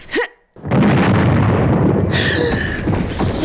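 A real bomb from a realistic-looking vest explodes in an audio drama: a short sound, a moment of silence, then a loud, heavy blast that keeps roaring and crackling to the end.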